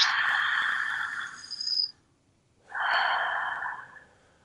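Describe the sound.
Deep diaphragmatic breathing: two long, airy, loud breaths with a short silence between them, and no talk.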